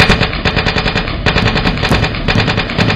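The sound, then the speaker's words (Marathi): Rapid automatic gunfire from militants holed up inside a village house surrounded by soldiers: a loud, dense stream of cracking bursts with no real pause for three seconds, and no voices. “आतून ताबडतोब गोळीबार सुरू झाले.”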